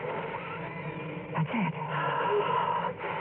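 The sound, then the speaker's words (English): Deep, drawn-out wheezing breath with a raspy, muffled tone, rising and swelling slightly midway before settling back into a steady rasp. “Would you mind opening your larynx a little wider, please? You see, I am using your sub-vocalizations to communicate. Now, breathe deeply.”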